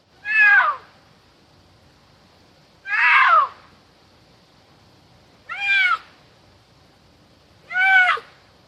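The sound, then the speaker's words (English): A cougar at Yellowstone calls four times, each a loud, harsh meow-like wail about half a second long, separated by quiet gaps of roughly two seconds. “Might sound familiar even if you don't live near a national park, but listen to this. This is a cougar.”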